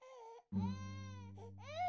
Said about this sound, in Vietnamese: chợt có tiếng trẻ con khóc ré lên ở trong khoang thuyền.